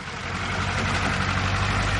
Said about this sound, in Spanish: El coche entra en el patio.